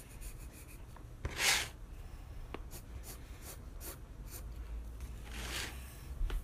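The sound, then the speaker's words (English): Pencil or pen scratching across paper while someone draws an anatomy sketch, a faint, continuous dry rasp broken by a few louder scratchy strokes. “no, so I'm still just drawing an anatomy right now.”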